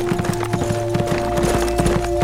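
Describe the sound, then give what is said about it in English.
Horse hooves clip-clop as a rider on a tiring black horse rides on: many hoof strikes in a steady, even rhythm, fairly loud, over a constant low tone. “He turned away and rode west”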